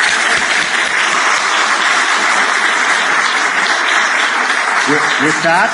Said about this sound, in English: Please give it up for our panel and yourselves.